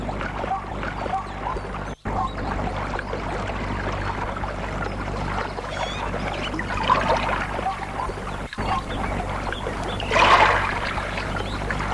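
A person jumping into water and swimming: continuous dense sloshing and splashing, steady in level for most of its length, with brief surges of louder splashing and no voices.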